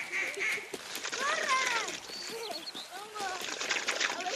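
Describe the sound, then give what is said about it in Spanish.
Ducks quack on a lagoon, a few bursts of nasal, harmonic calls rising and falling in quick runs, moderately loud over a soft background hiss. “¡Cazaban patos en la laguna!”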